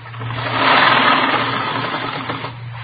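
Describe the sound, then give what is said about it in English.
A sewing machine runs steadily while stitching rows of ruffles. It makes a continuous mid-pitched whirring drone over a low hum, swelling slightly in the first second and then holding even, with no voices. “Well, I've got this sewing to do. You can see that, can't you? 3 more rows of ruffles go on. Right here.”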